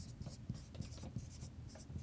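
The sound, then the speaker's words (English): A marker writes on a whiteboard in a series of short, faint squeaking strokes at irregular intervals, with soft rubbing between them. “So let me walk that out on the whiteboard.”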